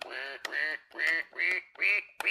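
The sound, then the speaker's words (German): Electronic duck quacks from an eight-key duck keyboard toy: five nasal, buzzy quacks in a steady rhythm, each about half a second long, with faint clicks between some of them. “Sind das eigentlich, das sind unterschiedliche Ententonhöhen, ne? Das sind 8 Tasten.”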